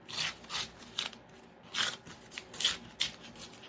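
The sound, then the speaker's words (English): Paper is torn by hand to give a rough, ragged edge for a handmade craft pocket: quiet, raspy ripping bursts come in quick succession with no talk. “But you know what? I think I'm not gonna make you a pocket. I'm gonna tear you off. I'm gonna tear you off.”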